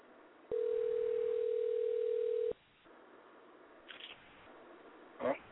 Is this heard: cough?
no

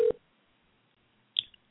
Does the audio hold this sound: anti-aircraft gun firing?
no

